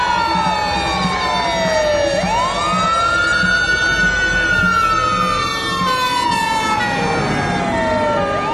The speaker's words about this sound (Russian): К дядиному жилищу съезжались пожарные машины.